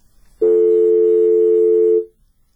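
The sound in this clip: Steady telephone line tone during a live phone-in call to a listener, heard as a single unbroken mid-pitched tone that holds evenly for about a second and a half before cutting off, alone with no voices over it.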